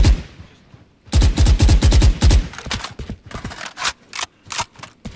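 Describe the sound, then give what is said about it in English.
Gunfire from the Stinger submachine gun in the video game Valorant: after a quiet start, a dense, loud burst of rapid shots, then shorter scattered bursts and single shots. “A stinger over a bucky. Stinger is what, one of the pistols? No, it's a machine gun.”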